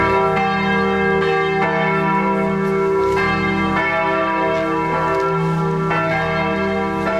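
Church bells of St. Georg church in Wendessen ring loud and sustained, with many rich, overlapping strikes that follow one another at an uneven rhythm and leave a lingering hum between them.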